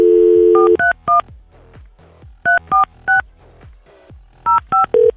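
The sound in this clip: Telephone keypad dialing tones: a steady dial tone cuts off into rapid electronic beeps pressed in three quick groups, each beep a short, loud, pure two-note tone with brief pauses between the groups.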